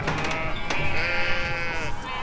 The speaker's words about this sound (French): On dirait qu'il y a des moutons en face. Mais d'où il y a des moutons dans ce labo?